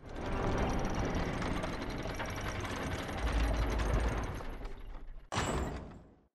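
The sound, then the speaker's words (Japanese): A school's main gate being closed: a sustained, loud mechanical rattling and grinding runs for about five seconds, breaks off briefly, then ends in a short final burst of clattering. “はい、正門閉めて。”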